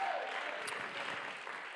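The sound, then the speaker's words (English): Steady applause from worshippers clapping their hands in praise to God, a dense, even wash of claps that holds at one level from start to end. “And while I'm here and while I have hands to clap, I'm going to clap my hands.”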